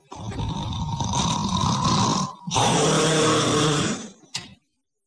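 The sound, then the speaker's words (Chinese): A man's voice imitates loud snoring: two long, rasping, rumbling snores separated by a brief pause, then a short snort-like burst before silence. “就听这哈雷在屋子里边就打上呼噜，”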